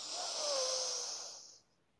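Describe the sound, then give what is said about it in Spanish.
A deep inhale before singing: a steady, airy hiss of breath drawn in for about a second and a half, which then cuts off into near silence. “Vacíate completamente. Y inhala para cantar.”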